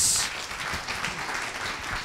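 Audience applause at a live question-and-answer event, a steady wash of many hands clapping that holds at an even, moderate level with no breaks.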